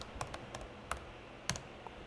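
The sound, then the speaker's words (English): Typing on a computer keyboard to enter a command while coding: a few sparse, faint keystroke clicks, irregularly spaced, over a low background hiss. “I'm going to, again, type in help 50 and then make hello 1.”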